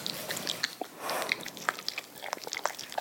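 Noisy, wet chewing from a young dog working at food with teeth not yet strong. Many quick clicks and smacking bites come in an uneven run, moderately loud, with no talk over them.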